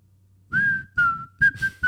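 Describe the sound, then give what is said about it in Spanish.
A person whistles a tune in a few short phrases of clear, steady high tone with slight pitch bends, separated by brief pauses, over a faint low hum. “de cualquier manera, empezó a chiflar.”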